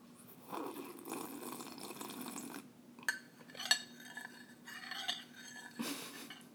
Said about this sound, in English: I hope you enjoy some coffee sounds.